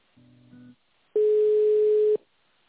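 Telephone line tones sound while a call is transferred to an extension: a soft, low two-tone buzz comes first, then after a short gap a louder, steady single-pitch tone holds for about a second and cuts off.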